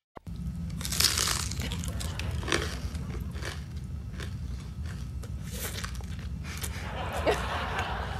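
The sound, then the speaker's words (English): Plastic bags are opened and closed in an ASMR recording, giving crisp crinkling and crackling bursts over a steady low rumble, with a few louder rustles standing out. “That's ASMR. That's what that is, right? Well, you know, it's interesting because I was online and we stumbled on it and I thought, is this really true? And you see these people opening and closing bags.”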